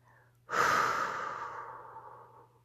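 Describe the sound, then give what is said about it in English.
A whooshing exhale through parted lips, done as part of a 4-7-8 breathing exercise: a single long, breathy rush of air that starts strongly and slowly fades away, with no other sound around it. “First, let your lips part and make a whooshing sound,”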